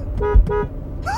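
A car horn gives two short, loud toots in quick succession, each a bright, buzzy blast separated by a brief gap.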